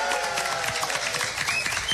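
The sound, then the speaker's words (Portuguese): An audience applauds at a live Mesa de Bar show. Dense, even clapping fills the whole stretch. “Quem gostou do Mesa de Bar, bate palmas.”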